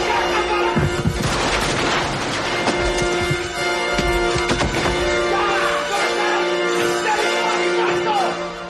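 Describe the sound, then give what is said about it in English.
Gunfire rings out in an action film scene as one gunman blasts another and shots hit a table where McClane is hiding. Loud bursts and booming shots repeat many times over a steady underlying hum. “The other guy comes in, he blasts that guy, then...”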